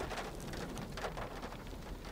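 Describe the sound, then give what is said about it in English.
Steady rain during a thunderstorm while driving, a dense, continuous hiss of drops spread across the whole stretch with no talking. “Okay, and the rain's picking up again.”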